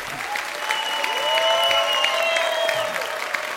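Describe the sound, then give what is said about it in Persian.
Audience applause with cheering and shouts of hooray from a crowd at a live talk event, a dense, steady clatter of clapping that swells slightly and holds at a moderate level, with voices rising over it. “من میخوام یه تشویق جانانه از کوچاتون داشته باشین با جیغ هورا”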